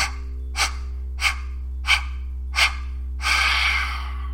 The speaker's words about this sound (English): take 5 deep exhales, short and fast.